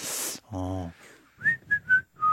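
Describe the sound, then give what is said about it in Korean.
Human whistling: four short, clear whistled notes at a similar pitch, the last one lower, follow a burst of noise and a brief buzzy tone, with no words spoken. “네, 휘파람 잘 부시네요.”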